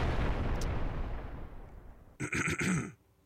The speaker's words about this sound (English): I am never going to stop playing these explosions. Like one of these.